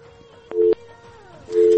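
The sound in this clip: Busy signal on a telephone line after a call was dropped: two steady mid-pitched tone bursts, the first short and the second running on until it is cut off.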